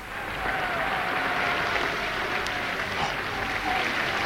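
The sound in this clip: Circus audience applauding for Fram the performing bear, a dense, steady wash of clapping that stays even throughout.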